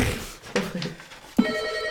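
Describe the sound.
A telephone rings, with a bright, sustained ringing tone that starts partway through after a soft muffled bump and continues to the end.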